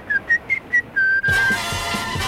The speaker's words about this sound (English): All you have to do is whistle. You do know how to whistle, don't you?